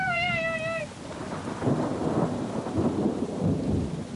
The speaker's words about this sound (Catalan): li caia al damunt un xàfec de pluja que la deixava molla fins als ossos